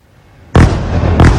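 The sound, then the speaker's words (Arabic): Explosions from warplane air strikes on Gaza at night: a sudden loud blast with a rumbling tail, then a second heavy burst about half a second later. “على أصوات قصف الطائرات الحربية غفت غزة ليلها”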